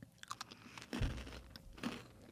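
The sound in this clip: Crunchy caramel-coated pretzel balls about the size of a gumball are bitten and chewed. A couple of sharper cracking crunches stand out among quieter chewing, all fairly faint and without talk.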